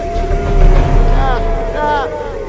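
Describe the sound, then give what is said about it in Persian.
A car engine that won't start sputters and whines with a steady mechanical drone, while people talk over it. “روشن نمیشه نه؟ روشن برو جونه بچه”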